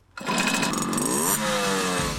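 Small moped engine from a moped club revving, a buzzing two-stroke-like drone that starts abruptly and holds loud and steady, its pitch shifting partway through.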